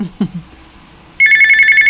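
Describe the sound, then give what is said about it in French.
A telephone bell rings, a bright, continuous trilling ring that starts suddenly partway through and holds steady to the end. It follows a couple of short, low thumps and a quiet gap. “Oui, ça sonne.”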